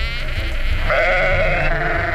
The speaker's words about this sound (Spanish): Os proponemos pasar un día con un rebaño de ovejas manchegas.